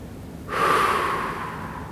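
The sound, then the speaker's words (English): A deep breath exhaled through pursed lips: one long, fairly loud airy blowing sound with a faint whistle. It starts abruptly and slowly eases off over about a second and a half. “take a big, deep breath in through your nose and exhale by pursing your lips and blowing out.”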